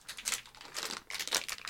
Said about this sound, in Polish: To opakowanie to tak rzeczywiście niezbyt jest przyjemny dźwięk.